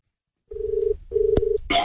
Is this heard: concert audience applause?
no